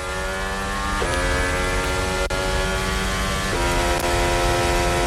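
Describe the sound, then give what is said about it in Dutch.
A Formula 1 racing car engine heard onboard: a loud, continuous, high-revving whine whose pitch drops sharply twice at gear changes. “Onboordgeluid komt van Liam Lawson.”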